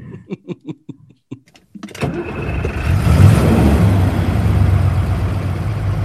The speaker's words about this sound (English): should we get in our Winnebago and go? And while we're traveling, you can tell us all about it. Let's drive through the three states.